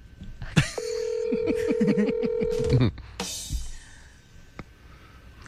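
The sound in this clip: A telephone call being dialed: a steady held tone under a quick run of clicks and beeps, then a pause and a few more tones, with brief voices around it.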